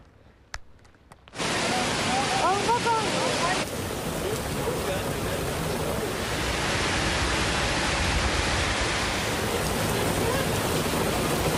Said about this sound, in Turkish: Bir anda bastıran sağanak İstanbullulara zor anlar yaşattı.